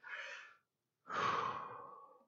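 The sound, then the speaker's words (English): Soft breathing in and out: a short breath followed, after a brief pause, by a longer, fuller one with a rushing, airy quality, both faint and heard alone. “I take inhalations as well as exhalations.”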